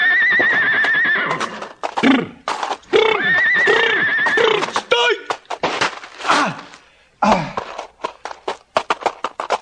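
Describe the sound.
A horse whinnies loudly in two long, quavering high neighs, then snorts and a quick run of sharp hoof clops and clatters.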